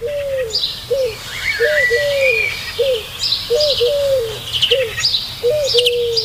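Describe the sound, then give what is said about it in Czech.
Bird calls repeat as a steady series of short, mid-pitched hooting notes at fairly even intervals, while fainter, higher chirps from other birds overlap throughout. “Tenhle zvuk tohohle ptáka mě děsí.”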